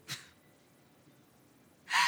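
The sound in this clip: A voice gasps in a deliberately high-pitched tone: a brief breathy burst at the start, a quiet stretch, then a louder, sharper gasp at the end.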